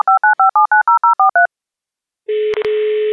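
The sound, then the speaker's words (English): Telephone keypad dialing: a rapid run of about ten short two-note touch-tone beeps, then a pause and a steady, buzzy line tone interrupted by a couple of sharp clicks. “So I think we should dial in.”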